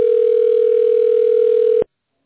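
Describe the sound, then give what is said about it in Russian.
A telephone ringing tone sounds while a call is transferred to a personal manager. It is one steady, mid-pitched, unbroken tone that holds for under two seconds and then cuts off abruptly into silence. “Ваш звонок переводится на вашего персонального менеджера.”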